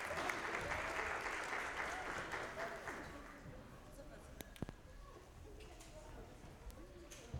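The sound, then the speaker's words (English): A church audience gives a brief round of applause to people leaving a morning service, dense clapping that fades after about three seconds into quieter room murmur with voices and a few scattered claps. “So we can give them a small hand as they leave this morning.”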